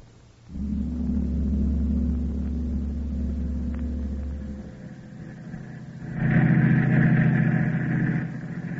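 Car engine on a clear, cool night drive along a highway: a steady, low rumbling drone that holds for several seconds, then turns louder and brighter near the end.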